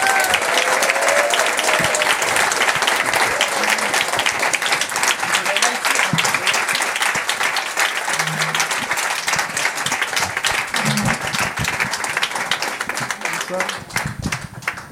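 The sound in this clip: Enthusiastic audience applause welcoming a band on stage, a dense, continuous patter of many hands that stays loud throughout and eases slightly near the end.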